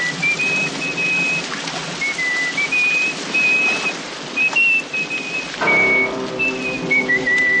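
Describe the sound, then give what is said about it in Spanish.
A man whistles a high, clear tune in a dramatic film scene, the melody running in sustained notes with a few short breaks, over a steady noisy background. “Otro de ellos comienza a silbar.”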